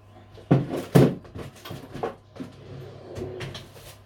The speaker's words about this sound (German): Eier wieder in den Schrank. So, Mehl, Zucker in den Schrank.